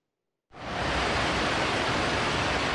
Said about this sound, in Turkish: Sağanak sele dönüştü. İlçe merkezinden geçen iki dere taştı ve araçlar da sele kapıldı maalesef.